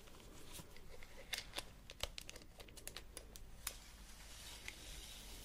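Handling of a classic metal builder's tape measure during up-close ASMR measuring: many sharp clicks, ticks and light metallic rattles in an irregular rhythm over a steady soft hiss, with no talking.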